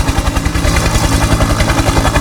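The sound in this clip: Loud helicopter noise with a rapid, regular thumping of the rotor in the low end. It sits under dense, roaring engine noise that stays constant throughout.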